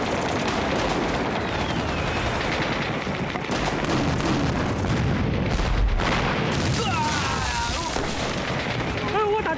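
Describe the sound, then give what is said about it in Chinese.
Heavy gunfire and artillery in a battle: a dense, unbroken roar of overlapping shots and booms that stays loud and steady throughout. “你看共军的火力越来越猛了，好像是增援了。”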